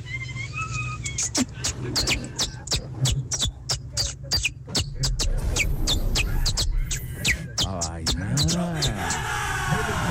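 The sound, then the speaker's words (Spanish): A person imitating a canary's song, producing many rapid, sharp whistled chirps and high trills in quick succession, ending in a warbling, wavering whistle; fairly loud and continuous. “Yo trato de imitar a un canario.”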